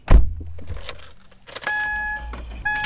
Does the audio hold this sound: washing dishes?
no